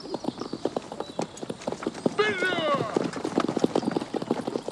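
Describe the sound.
Horses ride off at pace with quick, continuous clip-clop hoofbeats. A high, wavering whinny cuts through midway, and the galloping rhythm carries on to the end.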